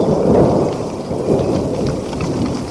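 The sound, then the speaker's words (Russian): Rain pouring down during a rural downpour with rolling thunder; a loud, deep rumble swells twice over the continuous hiss of heavy rain, with no voices. “пришлось спрятаться от дождя, забираться под крышу.”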